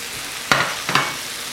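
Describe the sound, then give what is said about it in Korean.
Tomato sizzles as it is stir-fried in a pan: a steady, soft frying hiss broken by two sharper bursts of stirring and spattering. “지글지글지글 소리가 나죠? 자, 이것을 볶고 그 다음에 뭘 넣을까요? 이제 토마토를 넣을까요? 자, 토마토를 넣고”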